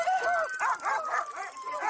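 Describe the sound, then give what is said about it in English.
A dog barks in a quick, steady series of high, yelping barks, loud and harmonic, with about one bark every quarter second, heard as a taser is brought out. “Uh-oh, we got a dog.”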